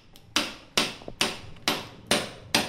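A hammer drives a nail on a construction job with six sharp, evenly spaced strikes, each a loud crack that quickly decays before the next blow.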